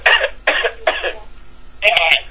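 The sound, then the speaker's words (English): Harsh coughing from a person choking in the middle of talking: three loud, rasping bursts in quick succession, a short pause, then a longer, rougher cough that catches in the throat, with no words spoken. “I had more to say, but I started choking.”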